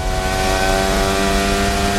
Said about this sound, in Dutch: Hier komt Oscar Piastri.